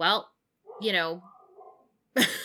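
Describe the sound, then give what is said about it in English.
A pet dog yelps and whines in a few short, high, strained bursts separated by brief silences. “is our dog, apparently.”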